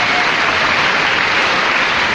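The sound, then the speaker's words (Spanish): Audience applause at a Catholic church gathering: dense, even clapping that holds a steady level throughout, with no voices over it. “Ahora un aplauso a todos los que vinieron, ¿eh? A los que vinieron.”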